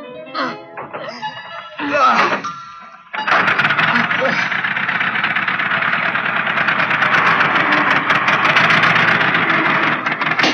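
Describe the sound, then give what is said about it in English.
A small model motor starts up and turns its attached propellers, catching after a few brief, broken bursts and then holding a loud, steady, buzzing drone to the end. “Okay, start up the motor again and see if he'll still turn these propellers. Here goes.”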